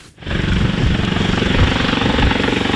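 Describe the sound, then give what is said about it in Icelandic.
Icelandic Coast Guard helicopter in flight: a loud, continuous roar with a rapid, steady rotor pulse running throughout, with no talking. “það tók þyrlu Landhelgisgæslunar 80 mínútur að fljúga frá Reykjavík Ásleysstað á Jökuldal á laugardaginn.”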